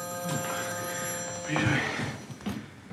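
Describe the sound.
A telephone rings faintly and steadily under a voice talking, its even tones holding throughout.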